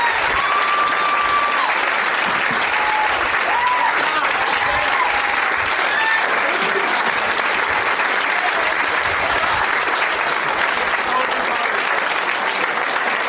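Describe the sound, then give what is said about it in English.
Loud, sustained applause from a comedy show audience, a dense, steady wash of clapping that holds at an even level for the whole stretch of about thirteen seconds. “One more round of applause for all of these guys.”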